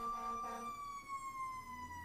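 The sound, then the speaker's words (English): A fire truck siren wails outside the window as the truck drives by. The tone is faint and sustained and drifts slowly downward in pitch. “Sorry, everybody, there's a fire truck driving by our window.”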